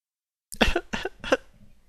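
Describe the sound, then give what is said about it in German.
A person clears their throat with three short, rough, voiced bursts in quick succession, fairly loud, trailing into a quiet breathy tail. “Ich muss mich räuspern, Sekunde.”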